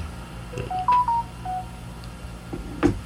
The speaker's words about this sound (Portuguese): Deixa eu ligar, pra que no celular fica melhor. Deixa eu ligar.